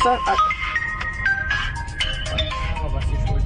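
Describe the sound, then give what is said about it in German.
A phone rings with an incoming call inside the cab of a 2021 DAF XF truck: a bright, stepping melodic ringtone over a steady low rumble. “Alex Spedition ruft an.”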